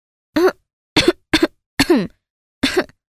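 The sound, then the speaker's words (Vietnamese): A woman gives a few deliberate, feigned coughs: five short, rough, voiced bursts separated by brief pauses, moderately loud, with no talk around them. “Nàng húng hắng hò 2-3 bận, cốt để cho chú hoàng tử áy náy, cảm thấy là mình có lỗi.”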